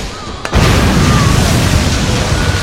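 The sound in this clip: An artillery shell explodes and overturns a machine gun in battle: one sudden heavy boom about half a second in, then a loud, sustained rumbling roar.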